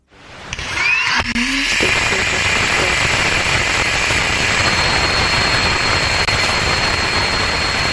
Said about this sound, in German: That is a healthy Rutherford engine startup on the second stage now that we are clear of first.